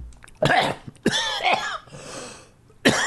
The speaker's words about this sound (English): Excuse me. You ever taken too much saliva by accident? You're not supposed to choke on the podcast.